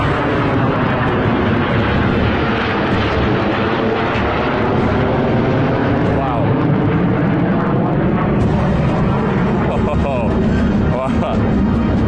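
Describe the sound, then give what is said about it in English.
B-2 bombers flanked by four F-35 jets flying overhead make a loud, continuous roar of aircraft engines that fills the whole stretch, with voices talking over it. “the B-2 bombers actually are flying overhead right now. You can't see them on your screen just yet. They are literally flying over my head now, flanked by four F-35s. You might be able to hear them.”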